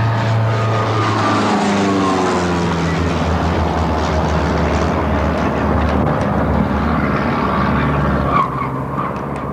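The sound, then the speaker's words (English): A small propeller plane dives repeatedly toward a waterfront postal annex in South Boston. Its engine drones loud and steady throughout, the harmonic tones sliding in pitch as it swoops. “That's the sound of a small plane repeatedly diving down out of the sky toward the South Boston Postal Annex along the Fort Point Channel, while the pilot fires an AK-47 assault rifle out the window.”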